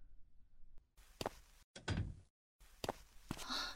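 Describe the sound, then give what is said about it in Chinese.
A key unlocks and opens a door: a few metallic clicks and rattles and a dull thud, separated by brief silences, with a brighter jingling scrape near the end. “钥匙开门”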